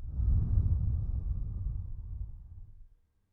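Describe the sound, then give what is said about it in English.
One long, deep breath rushes out in a steady, breathy stream that slowly fades over about three seconds and then stops, with no speech. “I want you to stop for a few minutes and take a few big deep breaths with me. You ready? In and out.”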